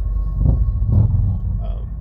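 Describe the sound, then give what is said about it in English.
Road noise inside a moving car, a steady loud low rumble of the engine and tyres that holds at an even level throughout, with faint swells. “But again, I'm driving, so you're going to hear all kinds of ambient noises.”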